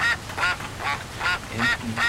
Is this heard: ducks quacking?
yes